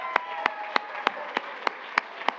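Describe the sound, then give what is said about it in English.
Applause for a team being thanked at a ceremony: eight crisp claps in a steady, even rhythm at a moderate level, with faint background noise between them. “Let's give them a round of applause and say thank you for making this dream a reality.”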